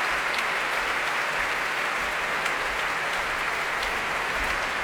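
Concert audience applauding the Deutsche Kammerphilharmonie orchestra, a dense, even wash of many hands clapping that holds steady for the whole stretch without a break.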